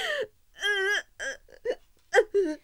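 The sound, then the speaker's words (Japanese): A person cries in a costume-drama audio play, a sequence of halting whimpering sobs: one longer wavering wail, then several short, catchy gasping bursts separated by brief silences, alone without other talk. “思いっきり泣きなよ、宗師。”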